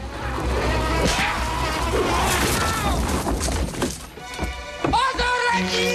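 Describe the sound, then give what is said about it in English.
A basket of rock drops and clunks onto a soldier's head in a castle courtyard fight near a crane's arm, heard as a loud, crashing, splintering impact buried in dense, continuous action noise. “A soldier attacks him, but the basket drops down and clunks the man on the head.”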